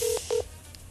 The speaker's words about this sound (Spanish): Listo, ya le voy a marcar.